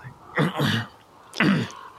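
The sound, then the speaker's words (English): A person awkwardly clearing their throat: two short, rough, voiced bursts separated by a brief pause, the second one sharper. “I will kind of, awkwardly, first of all, try to kind of clear my throat.”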